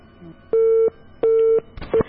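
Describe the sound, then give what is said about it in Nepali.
Telephone busy tone after a call was cut off: two steady, even beeps with a short gap between them, then a third beep that is cut short. “Shyam प्रसादजी जोडिनु भएको थियो, उहाँ चाहिँ गाईबस्तु चराउँदै हुनुहुन्छ र के कारणले गर्दाखेरि उहाँको फोन चाहिँ काटिएको छ”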